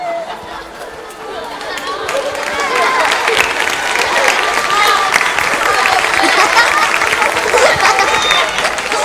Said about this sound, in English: At the back of the auditorium, Malcolm grins and applauds.